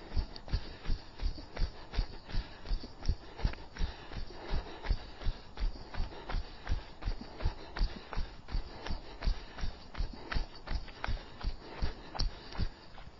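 Rhythmic footfalls of someone jogging on the spot, knees lifted high and landing on the balls of the feet, a quick, even stream of many soft thuds continuing for about thirteen seconds.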